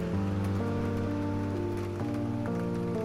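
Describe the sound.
Steady rain falls as a continuous, even hiss. Sustained low musical tones run beneath it the whole time.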